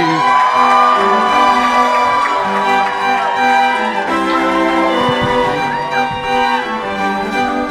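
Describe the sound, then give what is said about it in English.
An audience at an afternoon comedy club show in Brisbane cheers and whoops as the host is welcomed to the stage. The crowd noise stays loud and continuous, with scattered shouts throughout. “Please put your hands together and welcome to the stage your host for this afternoon show.”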